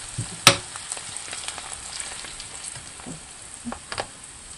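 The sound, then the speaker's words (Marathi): Spices and fresh coriander sautéing in oil for a tempering, giving a soft, low sizzle. A sharp clink comes near the start, followed by a few light stirring scrapes. “फोडणी थोडी कोथिंबीर घालू, परतून घेऊ। मसाले करपले जाणार नाही त्याची काळजी घेऊया।”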